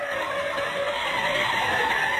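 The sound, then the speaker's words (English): Car brakes are slammed on and the tires skid with a continuous, harsh high-pitched screech and hiss that holds steady for about two seconds, with no other sounds. “That is the sound of the brakes being applied”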